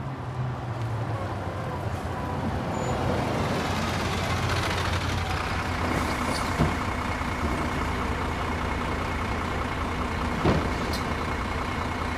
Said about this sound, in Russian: Приехал автобус.